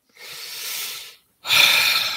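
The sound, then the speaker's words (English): A deep breath: two long, airy rushes of breathing separated by a short pause, the second louder and harsher than the first, with no talking. “Deep breath.”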